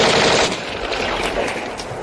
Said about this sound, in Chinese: 开枪！开枪！ 快开枪！